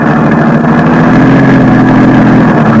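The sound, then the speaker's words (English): Car engine rumbling steadily as a car drives onto the charred ruins of a burned-down paint factory. The loud, continuous drone holds an even hum throughout, with no clear change in pitch. “I drove onto the charred ruins that had once been the Chantilly Murdoch paint factory”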